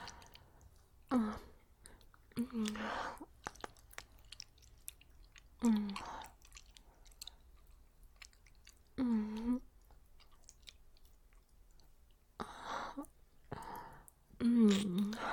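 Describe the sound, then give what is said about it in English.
Wet licking and tasting mouth sounds come in a few separate bursts, with soft voiced murmurs mixed into them and quiet pauses between. “took a lick. To taste you.”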